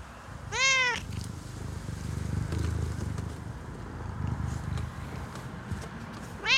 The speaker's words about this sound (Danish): Jeg går forbi en lille bitte løve af en kat.